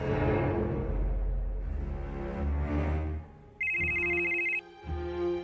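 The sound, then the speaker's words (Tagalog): A telephone rings with an incoming call: a bright electronic ringtone burst of steady high tones sounds near the end, following several seconds of low, rumbling background. “Tumatawag si Jing!”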